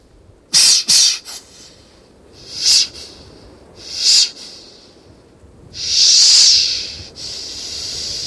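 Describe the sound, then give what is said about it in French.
Breath blown out in a series of hissing, airy puffs: two quick bursts, then two separate short blows, then one longer sustained blow, followed by a fainter trailing breath, all without talk. “Je souffle. Je suis une antenne.”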